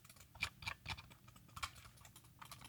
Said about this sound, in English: Now I'm going to take this mouse that I have and click it near the microphone.